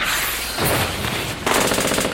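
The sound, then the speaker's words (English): Loud machine gun fire erupts in a valley ambush, a dense, continuous rattle of rapid shots that keeps going without a pause, with the burst texture shifting twice as the firing carries on. “It was basically as if every high point on either side of the valley erupted in machine gun fire.”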